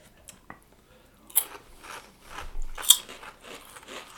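Crisp bites and crunches into a chili cheese flavored 3D corn snack, a few sharp, faint crunches spaced between softer chewing sounds.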